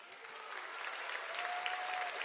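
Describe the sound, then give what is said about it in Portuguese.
Steady applause from a crowd welcomes a guest at a gathering, a dense, even clatter of clapping that holds at moderate volume without a break. “Uma salva de palmas pra Larissa.”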